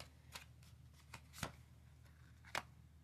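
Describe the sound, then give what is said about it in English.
Oracle cards are shuffled for a love reading: a few faint, quick riffling bursts separated by quiet pauses. “All right, so I'm gonna go pull out my oracle cards and stuff and see what's gonna be going on.”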